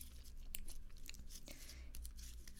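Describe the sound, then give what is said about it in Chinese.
Slime is pressed and poked against an ear, making quiet, sticky squelches and crackles. Many irregular little clicks and pops come over a soft, steady background. “戳一戳你的小耳朵，用这块史莱姆”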